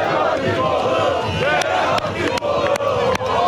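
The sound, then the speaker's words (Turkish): Galatasaray football fans roar and chant while celebrating a championship in Cumhuriyet Square in Kayseri, a loud massed crowd with shouting voices and sharp percussive hits at a steady beat. “Türkiye'nin dört bir yanında olduğu gibi Kayseri'de de şampiyonluk coşkuyla kutlandı. Galatasaray'ın şampiyonluğu ilan ettikten sonra Kayseri'deki sarı kırmızılı taraftarlar Kayseri'nin simge noktalarından birisi olan Cumhuriyet Meydanı'na geldi.”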